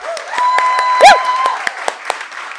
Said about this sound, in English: So make a round of applause for Skylight for letting us be here.